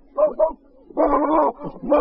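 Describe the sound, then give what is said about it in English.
A dog barks in a few short, sharp yips, then gives longer, drawn-out whining barks. The sounds are fairly loud and come in bursts with brief gaps between them, with no other sounds over them. “Pat that dog.”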